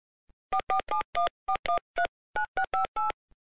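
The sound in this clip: Phone keypad tones sound as a mobile call is dialed: eleven short, clipped dual-pitch beeps in uneven quick succession, with a faint click before and after. No voices are heard.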